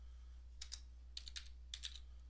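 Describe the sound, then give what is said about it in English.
A command is typed on a computer keyboard in three short clusters of soft, crisp keystroke clicks. The typing is faint and sits over a steady low electrical hum. “Let's type it again, ipconfig.”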